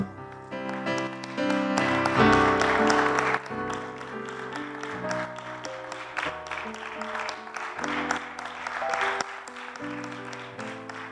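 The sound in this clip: Congregation clapping hands during a church service: many sharp claps over sustained musical tones, loudest near the start and then continuing more evenly to the end.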